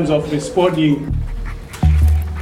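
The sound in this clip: A trained tracking dog, used to follow poachers, pants and whimpers in short breathy bursts over a low rumble, while a person's voice can be heard.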